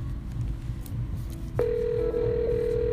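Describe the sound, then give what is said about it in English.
A telephone line tone sounds while a call is dialed. A steady, mid-pitched electronic tone starts abruptly about halfway through, over a low background hum, and a second close tone joins it shortly after. “It's dialing. Guys, while it's dialing.”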